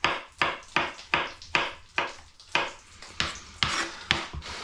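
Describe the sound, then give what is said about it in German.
A kitchen knife slices button mushrooms thinly on a board, giving many crisp, evenly spaced cuts in a steady rhythm, each a short sharp tap with a soft tail, and no voices. “Du siehst, wenn du es schön gleichmäßig dünn schneidest, kriegst du auch so vier großen Champignons so einen richtig großen Haufen hin.”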